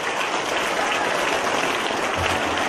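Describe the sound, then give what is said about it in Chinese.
Dense, continuous audience applause at the close of a Buddhist gathering, with many hands clapping steadily and loudly throughout and no voices standing out. “让我们再次以最热烈的掌声感恩大慈大悲的观世音菩萨，感恩大慈大悲的卢金红台长”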